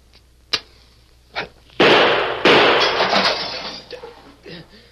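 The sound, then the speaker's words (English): Gunshots fired to shoot a cigar out of a person's hand: two short, sharp cracks come first, followed by two much louder bursts that trail off in a noisy, crash-like decay. “Shot the cigar right out of my hand. He snuffed out the match with his other gun.”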